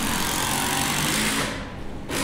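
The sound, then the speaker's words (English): Screws, about 4.5 inches long, are driven into cedar with a steady, harsh, high whirring. The whir runs continuously, sags briefly near the end, then picks up again. “She's screwing actually 4, 4.5 high screw that she's screwing into the cedar log, or it's not a log,”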